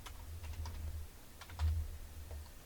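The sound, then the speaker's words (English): Typing on a computer keyboard while searching for images online: a few soft, scattered keystroke clicks, quiet and uneven in rhythm, over a low steady hum, with no talk. “Type in Old Delhi.”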